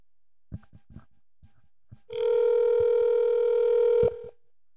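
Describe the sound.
An outgoing telephone call rings on the line: a few faint clicks come first, then one steady, buzzing ringback tone holds for about two seconds before cutting off.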